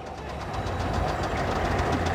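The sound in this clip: An engine runs on a single cylinder, giving a loud, steady, rapid knocking chug that keeps an even beat from start to end with no voices.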